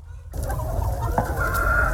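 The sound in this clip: Chickens of a meat breed cluck steadily on a farm, a dense, continuous chorus of overlapping clucks after a brief quiet start.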